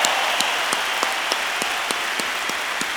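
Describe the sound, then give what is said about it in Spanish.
Audience applause for a rock band at a live symphonic concert: a steady wash of clapping with sharp, regular claps punching through about three times a second, with no talk over it. “un aplauso chido para la banda, un aplauso chido para ustedes mismos.”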